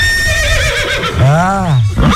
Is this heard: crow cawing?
no